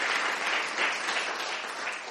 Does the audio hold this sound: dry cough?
no